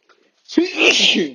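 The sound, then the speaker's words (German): A single sneeze, attributed to hay fever or a slight cold, bursts out loud and sharp after a faint breath, then trails into a sustained noisy exhalation. “Nicht erschrecken, ich muss gleich niesen.”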